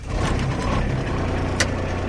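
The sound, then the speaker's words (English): The engine of a much-used motorized farm cart runs with a steady, low rumbling drone and a rough, noisy texture throughout, with no voices. “He's starting up the much-used motorized cart that transports him around the farm.”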